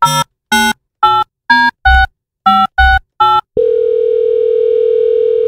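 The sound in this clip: Telephone keypad tones sound as a radio host dials a listener's number for a ticket giveaway: eight short, loud beeps of differing pitch in an uneven rhythm, followed by a continuous steady tone that holds to the end.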